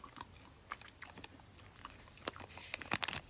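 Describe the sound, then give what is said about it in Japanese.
Crunchy strawberry gummy candy being bitten and chewed, giving many soft, crisp crunches and clicks. They are quiet and irregular, with no talk over them. “シャリッとする感じもありつついちごの味が広がって美味しいですうん”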